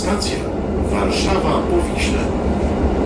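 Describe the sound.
A train crossing a steel bridge over the Vistula gives off a continuous heavy rumble and broad metallic roar, with a voice speaking over the steady noise.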